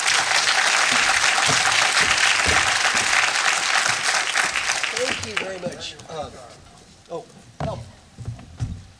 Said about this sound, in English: So please put your hands together, and we're welcoming Marshall Goldsmith to the stage.